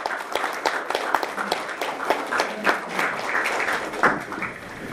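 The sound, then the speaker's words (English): An audience at a board meeting applauds a group of girls being recognized: many steady, fairly loud claps overlap in a continuous patter with a few sharper peaks. “Great job, girls. Good job. Let's give them a hand, y'all.”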